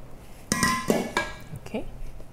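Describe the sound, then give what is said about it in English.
A utensil clinks and scrapes against a mixing bowl as meringue is added to cake batter. A few sharp clinks and knocks with short pauses between them, fairly faint. “Now, gonna add another third of the meringue in.”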